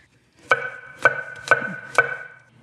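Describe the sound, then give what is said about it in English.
Knife slicing cremini mushrooms on a cutting board: four crisp, evenly spaced chops, each a sharp knock with a brief ringing tail, with no talk. “The next thing we want to do is we're going to slice some mushrooms. Love mushrooms. We've got some beautiful creminis.”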